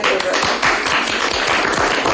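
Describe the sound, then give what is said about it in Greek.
Dense audience applause at an event in the Vrilissia cultural centre: fairly loud, continuous clapping, with a few sharp individual claps standing out from the steady wash. “Τη χειροκροτάνε κιόλας. Στο πνευματικό κέντρο Βρυλισσίων.”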